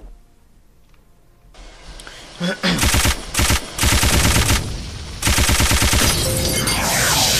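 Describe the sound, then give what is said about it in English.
Rapid machine gun fire in a video game with missiles and a boss fight, loud sustained bursts of fast repeated shots separated by short gaps, following a quieter lead-in. “Missile was supplied. Machine gun.”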